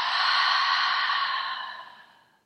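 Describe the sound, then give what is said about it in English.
A deep, sigh-like breathy exhale after a deep inhale, loud at first and fading out over about two seconds, during a guided breathing exercise. “let's take a nice deep breath in and then exhale out.”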